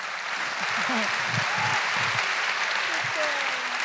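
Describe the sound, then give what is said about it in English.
An audience applauds at a live event in the Royal Festival Hall. The clapping is steady and dense throughout, with a voice speaking over it. “full applause break”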